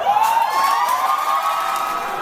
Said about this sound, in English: Moments later, it was cheers and hugs.